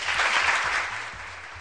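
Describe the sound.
Brief applause from a crowd: dense, steady clapping at a moderate level that fades slightly toward the end, with no voices.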